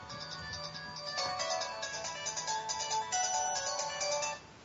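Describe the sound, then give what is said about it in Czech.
Mobile phone ringtone for an incoming call: a bright, repeating electronic melody that rings steadily at moderate loudness for about four and a half seconds, then cuts off, with no voices over it. “tak jako telefon, asi mě zrovna volá někdo, kdo jako nemusí, no.”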